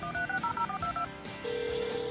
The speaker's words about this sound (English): I better call them now.